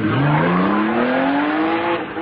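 A car speeding away, its engine roaring loud and continuous while its pitch climbs steadily over about two seconds.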